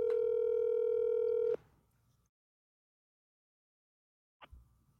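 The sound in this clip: An outgoing telephone call gives one steady, buzzing ringback tone lasting about a second and a half, then silence broken by a brief faint click.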